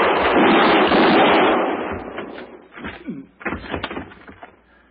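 Gunshots ring out in a radio-drama gunfight involving a marshal: a loud, dense blast of gunfire that thins into several sharper cracks and fades, with no talk over it.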